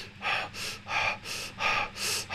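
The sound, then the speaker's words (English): A voice imitates rapid hyperventilating breath, six quick, breathy gasps in an even, hurried rhythm, fairly soft and alone. “So there were some times in meditation where I was almost hyperventilating, where it was like,”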